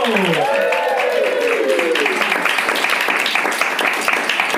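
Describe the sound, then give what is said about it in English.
A studio audience applauds to welcome two guest comedians onto the stage of a comedy game show, with dense, steady clapping that stays loud and even throughout. “And let's welcome them to the stage. Let's get a big round of applause for Sean Flanagan and Martin Angolo.”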